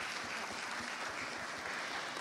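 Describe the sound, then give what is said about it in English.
A church audience clapping for fathers, soft steady applause that stays even throughout. “And so thank you to all the fathers in our lives. We can clap for them.”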